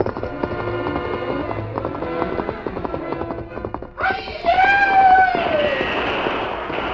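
A horse gallops into the woods, its hooves clattering in a dense, fast rhythm. Partway through, a loud whinny breaks out, and its pitch sweeps downward before the galloping carries on.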